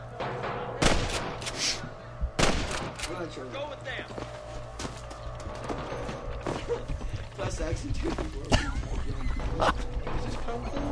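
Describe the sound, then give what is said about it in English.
Gunfire in a Western video game: a few sharp, loud reports spaced apart, standing out against a busy bed of mechanical clatter and other game sounds. “You out here jumping hurdles, getting shot at. Jump the snakes. That was some pretty damn good shooting”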